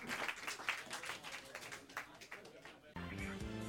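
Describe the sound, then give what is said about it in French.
Audience applause, a dense crackling wash of many hands clapping for about three seconds that cuts off abruptly as tonal music begins. “une main d'applaudissement général pour Alex Larocque, Steph Mallette et Brad Clunet.”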